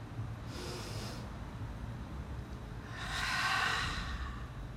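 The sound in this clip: Two soft, breathy rushes of air come from a person taking deep breaths during a guided breathing exercise: a short quiet one first, then a longer, fuller one, alone over faint background hiss.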